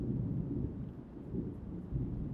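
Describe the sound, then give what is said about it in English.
Thunder rolls through a storm: a loud, steady low rumble that swells and eases over about two seconds, with no voices. “I love storms. The thunder, the lightning, the rain. It's all so exhilarating.”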